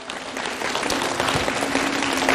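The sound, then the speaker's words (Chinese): Loud, dense audience applause at a stage event honouring science researchers, a continuous wash of many hands clapping at an even level throughout. “让我们把掌声送给所有的科研人员，谢谢他们。”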